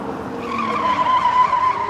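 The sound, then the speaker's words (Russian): Tire squeal from a black two-seater car speeding past a building entrance and reversing: a sustained, high, strained screech that builds slightly in loudness over about two seconds, alone. “Черная двухместная машина проносится мимо и тут же дает задний ход.”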